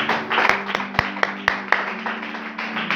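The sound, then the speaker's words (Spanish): A church audience claps during worship, giving a run of steady, evenly spaced claps in a rhythmic beat over a sustained musical tone, with a softer wash of clapping between the sharper hits. “Dale un fuerte aplauso al Señor en esta tarde.”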